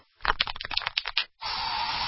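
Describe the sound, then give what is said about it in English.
Bug spray used indoors: a quick run of rattling clicks, then a steady aerosol hiss that carries on evenly to the end. “So you just used bug spray in your home. Now what?”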